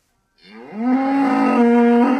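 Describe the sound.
A cow in a stall gives a single long, loud moo after a brief silence, sliding up slightly at the start, then holding a steady low tone until the end.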